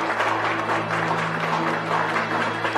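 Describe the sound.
Office employees of a company clap together while standing in a hallway, a dense and steady patter of applause that stays at an even level throughout.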